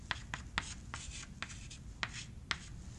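Writing on a board during a lecture: a few quiet scratchy strokes with short gaps between them, no talking.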